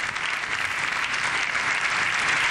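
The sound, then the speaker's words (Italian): Long applause from an audience in the Salone delle Feste of the Élysée Palace for the Pope, a dense, even wash of clapping that holds steady and full throughout without any voices on top. “Sentite ancora il lungo applauso che viene riservato al Papa.”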